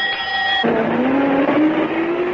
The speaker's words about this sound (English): Ma'am, what was that bus doing here?